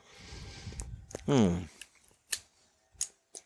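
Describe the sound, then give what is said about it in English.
A cutter snips the head off a Perdomo Reserve 10th Anniversary Maduro cigar with a few short, crisp clicks and snaps spread across the moment. A brief voiced sound and quiet talk mix in around them. “I just gave my cigar a nice cut.”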